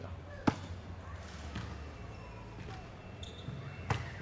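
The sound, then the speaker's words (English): Basketball bouncing on a court during free-throw practice, a few sharp, unevenly spaced thuds with the strongest bounces near the start and the end. “All right, now I'll get a couple free throws in.”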